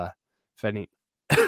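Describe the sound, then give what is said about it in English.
Coughing and throat clearing from someone with a lingering residual cough after an illness: three short, rough bursts separated by silence, alone with no talk. “Still have a little bit of a residual cough and some nastiness.”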